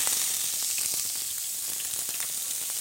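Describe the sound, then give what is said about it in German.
Vegetable oil sizzles in a very hot pot, a steady, bright, crackling hiss that holds at an even level throughout with no voices. “Aber ich kann ja jetzt schon mal zumindest das Öl in dem Topf erhitzen.”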